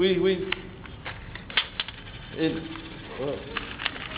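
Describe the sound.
Dimes dropping and missing their target, giving scattered small metallic clinks and taps under ongoing talk.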